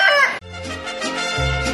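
A fighting rooster crows briefly, only the loud curving tail of the call audible before it cuts off abruptly, after which other sound continues.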